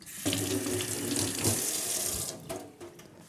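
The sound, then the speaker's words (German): Hands are rinsed under a running kitchen tap while cooking, giving a steady, full hiss of flowing water for about two seconds that then drops to quieter, uneven splashing. “So, kurz Hände abwaschen.”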